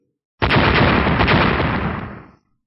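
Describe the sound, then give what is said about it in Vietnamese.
A thunderous explosive blast, a sound effect for lightning strikes, hits suddenly as one dense roaring burst that holds loud for about two seconds, then fades out quickly. “Ba tiếng nổ vang lên, thanh niên và đại hán đồng thời bị ngũ sắc điện hồ cùng bạch quang bao phủ vào trong.”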